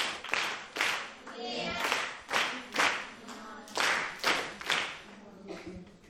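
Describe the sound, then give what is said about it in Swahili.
Group clapping during a Swahili grammar lesson comes in several short, rhythmic bursts with brief gaps between them, the pattern repeating steadily. “Haya, mpigeni makofi.”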